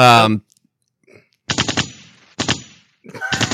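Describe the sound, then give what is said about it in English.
Automatic gunfire from a drive-by shooting sound effect rattles out in three short rapid volleys separated by brief gaps. “That's a drive-by. That drive-by right there.”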